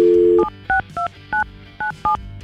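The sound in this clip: Telephone dialing to place a call: a steady dial tone, then five short, evenly spaced keypad beeps, each a clear two-note tone, with no voices.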